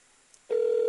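A telephone call is being placed: after near silence, a steady mid-pitched phone tone starts abruptly and holds unbroken to the end.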